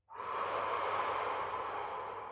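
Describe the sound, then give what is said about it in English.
One long, deep breath fills about two seconds as a soft, steady airy hiss that begins suddenly and tapers slightly toward the end, heard alone. “when you take a deep breath in and then slow the exhale, you physically feel more relaxed”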